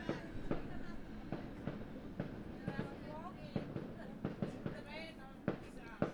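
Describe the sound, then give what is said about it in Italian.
Fireworks go off in many sharp, irregular pops and cracks over a steady low rumble, with a few faint whistling tones mixed in. “No, questi sono fuochi d'artificio.”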